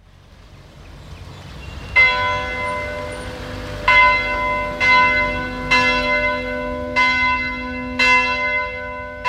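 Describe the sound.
A bell rings at an Anglican parish church built in 1774 on St Helena, a series of clear, bright strokes spaced a second or two apart, each ringing on and decaying over a low hum.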